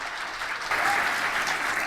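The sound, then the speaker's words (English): A crowd claps warmly to welcome a performer onto a stage at a yoga event, dense continuous applause that swells slightly louder about a third of the way in and holds steady to the end. “And now, please, with a big warm applause, open the stage for Sangeeta Lerner with Decolonize Yoga.”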